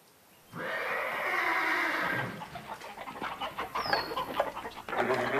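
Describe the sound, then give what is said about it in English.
Spooked horses whinny in a loud, shaky neigh that lasts nearly two seconds, followed by a busy stretch of agitated chicken clucking and squawks from flustered farm birds. “The chickens are all in a tizzy and the horses have been spooked.”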